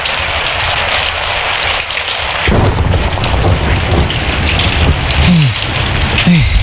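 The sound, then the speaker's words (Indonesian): Steady heavy rain hisses throughout under a darkening sky, with low rumbles of thunder rolling underneath the downpour. “Hujan lah Pak.”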